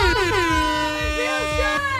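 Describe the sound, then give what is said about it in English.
A loud air horn blast holds for about two seconds as one sustained, brassy tone with stacked harmonics, wavering slightly in pitch. “Like an air horn on a Thursday. I know. Our bosses love the air horn.”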